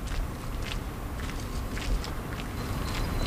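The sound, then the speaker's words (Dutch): Quiet footsteps along the Singel canal in Utrecht after dark, a few soft, evenly paced steps with faint gritty scuffs over low background noise. “Ik loop langs de Singel in Utrecht.”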